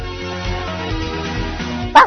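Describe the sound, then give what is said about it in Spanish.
A dog barking sound effect plays as a single short, sharp bark near the end, over a dense, continuous background sound. “esto no es un perro que ha entrado, no, es que hay que ladrar, para la siguiente noticia”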